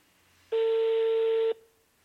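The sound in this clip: A telephone ringback tone plays on an unanswered call: one steady, pitched tone lasting about a second, alone over faint background hiss.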